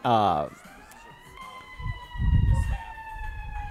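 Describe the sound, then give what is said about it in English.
A passing ambulance siren wails as a thin tone that climbs slightly and then holds steady, fairly faint and continuous, with people talking and low rumbling beneath it. “The ambulance is covering my brain fart. Go, ambulance.”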